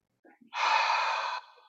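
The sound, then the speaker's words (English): A deep breath in during a guided breathing exercise: one steady, airy inhale lasting just under a second, preceded by a couple of faint short breathy sounds and trailing off quietly. “Breathe in and hold.”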